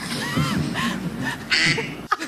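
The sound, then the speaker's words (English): A duck-quack phone ringtone: a few nasal, honking quacks over a steady background hiss, ending in an abrupt cut. “Does he have that as his ringtone? Who has a duck quack as a ringtone?”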